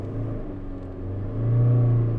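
A car engine labours in second gear on an uphill road, a low droning hum that swells louder about halfway through and then holds a steady growl.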